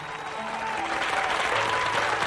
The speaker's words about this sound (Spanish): con un aplauso fuerte porque alguien, alguien recibió una caja en su casa que estaba esperando.